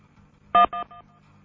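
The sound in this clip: Telephone keypad tones sound as a key is pressed to accept a call: three short, clean two-tone beeps in quick succession, the first loudest and the last faint.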